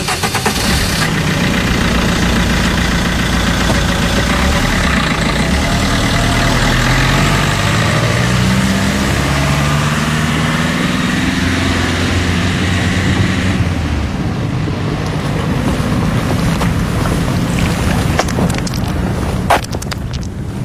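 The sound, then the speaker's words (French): Boat engine running in the port of Marseille: a loud, steady low drone that continues throughout, shifting slightly in tone partway through. “Là, on se trouve sur le port de Marseille. On a pris pas mal de routes. On est passé devant la jetée.”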